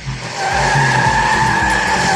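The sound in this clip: Loud, continuous tire squeal of a Formula 1 race car skidding, a steady high-pitched whine over a low engine rumble that holds for about two seconds without letting up.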